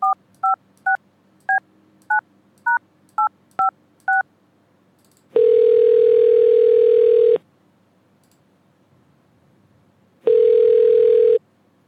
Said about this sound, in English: Let's call her up now and let's get to the bottom of this whole silly pickle, okay?